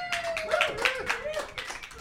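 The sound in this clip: A studio audience claps in scattered, sharp bursts under a person talking. The claps are fairly faint and irregular.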